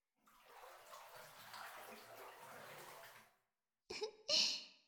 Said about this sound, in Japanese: それじゃあ体洗ってもう一回お風呂に浸かろうか。